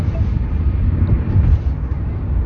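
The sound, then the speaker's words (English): Low, even rumble inside a moving car on the road from Delhi to Vrindavan, continuous and steady for the whole stretch with no voices over it. “You can probably hear that we're in the car.”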